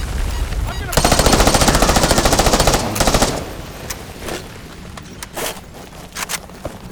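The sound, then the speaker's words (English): Video game gunfire from a Beretta M9 semi-automatic pistol and an AK-74 assault rifle, opening with a loud, rapid burst of automatic fire lasting about two seconds, followed by scattered single shots. “Two rounds out of NPC wielding Beretta M9 semi-auto, AK-74 assault rifle.”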